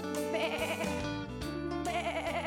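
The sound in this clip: A human voice imitates a sheep, giving a few drawn-out, wavering, nasal bleats one after another, loud and alone.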